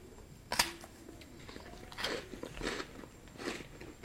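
Crunchy bites into a frozen Tim Tam chocolate biscuit: one sharp, loud crack at the start, then a few softer crunching chews.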